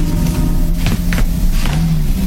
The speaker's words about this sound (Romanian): o mașină neagră intră pe alee. E un Ford.